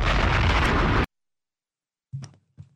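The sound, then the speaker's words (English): Bomb explosion sound effect: a loud, dense blast roaring for about a second before cutting off abruptly, followed by silence and then two short, softer thumps. “That's five bombs. Detonate them.”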